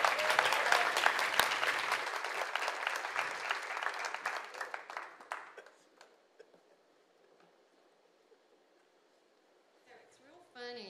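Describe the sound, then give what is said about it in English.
Church audience applauding to welcome the first speaker: dense clapping for about five seconds that thins and dies away into near silence, before a voice begins speaking at the very end. “So I want you to do this. Put your hands together and welcome our first speaker, Miss Portia Walker.”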